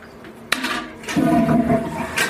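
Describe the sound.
A toilet flushes with a sharp click, then a loud rush of water carrying a steady droning tone that holds for about half a second before easing off, followed by a brief later splash.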